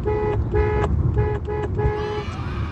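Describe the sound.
A car horn honking a rhythmic signal pattern while driving along a city street: five toots of a steady mid pitch, some short and some longer, over low road and engine noise.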